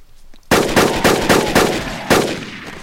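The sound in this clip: Burst-mode weapon gunfire in a video game: after a quiet start, a loud volley of sharp cracking shots fires in quick succession, then a final shot follows after a short gap.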